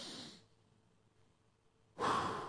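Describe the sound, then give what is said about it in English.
A deep breath drawn in, set in talk about calming a panic attack. Airy, breathy rushes are heard: a short one at the start fades out, then after a quiet pause a louder, fuller breath swells in and holds. “What do they teach you when you're having a panic attack? Breathe in.”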